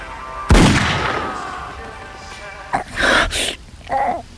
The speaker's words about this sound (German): Ich schieße.